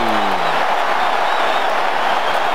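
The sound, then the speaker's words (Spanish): Stadium crowd in Atlanta cheering for South Africa during a football match after a penalty is awarded, a steady, loud wash of roaring voices with no distinct breaks. “Y la gente está con Sudáfrica. Escuchen al público de Atlanta.”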